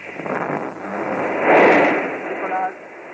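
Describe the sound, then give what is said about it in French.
A Véronique rocket launch from 1968 gives a broad, rumbling roar. The roar swells to its loudest in the middle, then eases off. “Ça y est, elle est partie. 1968, ce lancement de Véronique.”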